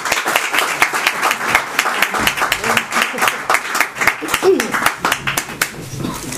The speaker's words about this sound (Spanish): para la que pido un aplauso